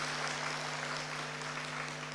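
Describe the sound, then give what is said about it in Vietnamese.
Audience applause at a Buddhist dharma talk: faint, continuous clapping from many hands that stays even and steady throughout, with no voices rising above it. “Thầy không biết là vỗ tay thiệt lòng hay là vỗ tay lịch sự ấy nha.”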